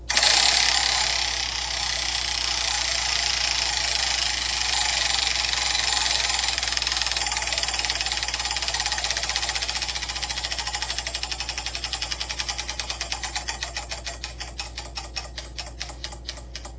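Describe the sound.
Rapid ratcheting clicks of a spun prize wheel run without a break, dense at first, then growing slower and more widely spaced toward the end as the wheel winds down.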